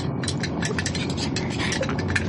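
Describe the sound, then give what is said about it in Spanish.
A small hairpin prying at the detonator of a bomb makes rapid, irregular metallic clicks and scrapes. The fiddling mechanical ticking carries on at a steady, moderate level throughout, with no voices. “Bien, veamos si esta pequeña pinza de cabello sirve para desprender el detonador de la bomba.”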